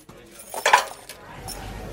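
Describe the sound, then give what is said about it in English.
A box of pens is poured out onto the floor, giving a brief cluster of light plastic clinks and clatter, then quiet. “picked it up very, very calmly. Very daintily. Then, like, edged them closer towards the ground, and as it got about 10 centimetres from the ground, slowly poured the pens out and then placed the box upright on the ground”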